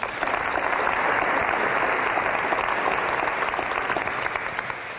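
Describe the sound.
Audience applause welcoming the panelists at a panel discussion: a dense, loud, steady wash of clapping that fills the whole clip without a break, with no voices standing out.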